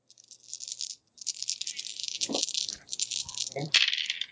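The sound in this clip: Dice dropped and rattling, giving a sustained bright clattering rattle that briefly stops, then resumes with a few louder knocks toward the end.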